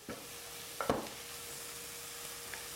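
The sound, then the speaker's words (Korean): Green onions stir-frying in a pan give a faint, steady sizzle, broken by a few soft scrapes and clinks of a utensil. “자, 한번 볶아주세요. 파는 금방 익으니까 파는 약간 더 있다가 넣어도 되고요. 이렇게 해서 한번 볶고”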